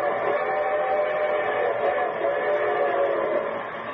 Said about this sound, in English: And here comes the star studded show train.